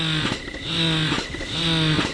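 An electric breast pump, just assembled and started up, running with a continuous motor hum broken by three regular suction cycles that repeat in an even rhythm.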